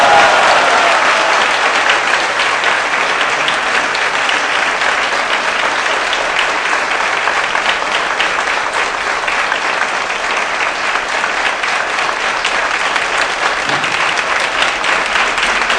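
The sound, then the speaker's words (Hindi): Loud, enthusiastic audience clapping at a devotional gathering, welcoming a Maharaj as a guest. Dense, sustained applause starts strong and carries on unbroken for a long stretch at a steady level, with no voices rising above it. “सब लोग महाराज का सुंदर ढंग से स्वागत धन्यवाद करेंगे जोरदार करताल ध्वनि से।”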